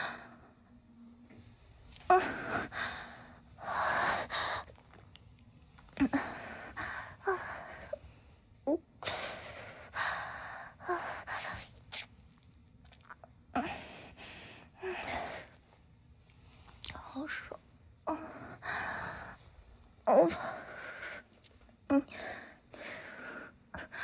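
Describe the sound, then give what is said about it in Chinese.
Heavy breathing right up against the microphone: many uneven, breathy puffs and gasps, loud and airy, coming in irregular bursts throughout. “你不要靠那么近好吗？呼吸都喷到上面”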